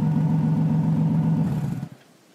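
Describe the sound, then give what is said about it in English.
Car engine rumbling as the car makes a quick turn to head back toward the highway; the low, steady drone holds for a little under two seconds, then quickly fades away. “Should we just turn around and get back on the highway? Yep, that's my vote. I'd rather run out of gas there than here. Where are we? All right, I'll do a quick turn.”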